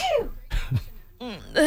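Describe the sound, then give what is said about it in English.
A person's sneeze: a sharp, noisy burst set among brief voiced vocal sounds, fairly loud and without words. “Mad at me for recording your sneeze.”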